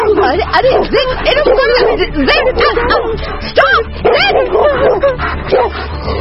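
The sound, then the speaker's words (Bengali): A black dog barks and yips excitedly as it lunges at a person, many loud, sharp barks and whimpering yelps coming in quick, irregular bursts throughout. “আচমকা কালো কুকুরটা রোশনীর হাত ছেড়ে সোজা সোনালীর গায়ে লাফ দিল।”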